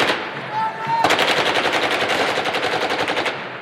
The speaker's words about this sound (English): Hundreds of young men fire machine guns into the air